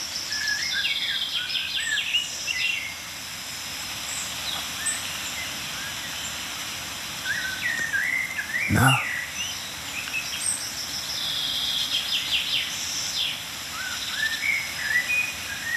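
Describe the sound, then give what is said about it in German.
Outdoors, a blackbird, a chaffinch and tits call at moderate volume. Scattered chirps and whistled phrases come and go over a soft rustling background. “ja, Amsel, Buchfink, Meisenrufer.”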